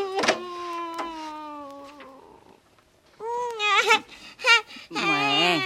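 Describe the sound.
A baby cries, first in a long, steady wail that fades, then after a brief pause in louder, choppier wavering cries.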